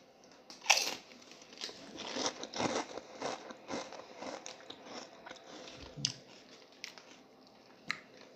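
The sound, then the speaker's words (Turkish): Crisp crunching and chewing as a potato chip dipped in sauce is bitten and eaten, with many sharp, loud crunches in an irregular rhythm followed by softer, moist chewing. “Cipsi açtım. Bir tane aldım. Sosa bandırdım. Şimdi ağzıma atıyorum.”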